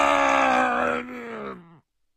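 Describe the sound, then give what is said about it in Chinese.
A man lets out a terrible cry as he falls backward. It is a single loud, drawn-out vocal cry at a steady pitch that sags slightly at the end before cutting off abruptly into silence. “于是巴洛斯发出一声可怕的喊叫，像遭了雷击似的向后倒下去。”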